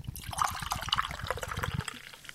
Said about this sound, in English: Ooh, the bubbles. You missed the bubbles. Yeah. ASMR. Oh. Did you just pour part of it on yourself?